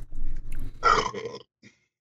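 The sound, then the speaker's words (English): A man burps after drinking ale in the morning, giving one throaty belch about half a second long. Low, quiet murmuring comes before it, and near-silence follows. “And one burp. Excellent. Yes, good ale this morning, I must say.”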